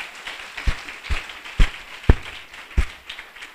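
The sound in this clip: Handclaps from a church audience acclaiming the scripture reading, a few sharp claps standing out at uneven intervals over a steady wash of softer clapping.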